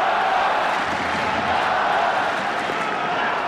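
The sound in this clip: A tennis crowd cheers for Carlos Alcaraz during his match against Novak Djokovic, a steady, fairly loud wash of voices with no single shout or clap standing out.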